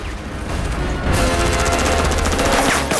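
Mortar and gunfire from a street battle at the steps of a palace: a dense, sustained barrage of crackling blasts that grows louder after the first second and stays harsh throughout.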